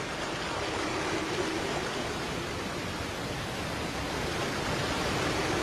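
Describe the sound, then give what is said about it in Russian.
A waterfall roars as a steady, dense rush of water noise, loud and unchanging throughout with no voices. “Слышишь, как гудит водопад?”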